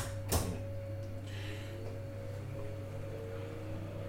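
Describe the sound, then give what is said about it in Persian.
An electric oven switched on to preheat gives a soft click, then a steady low hum with a faint high whine that runs unbroken to the end, with no talk. “ما سینی فر رو آوردیم و فر رو روشن کردیم داره گرم”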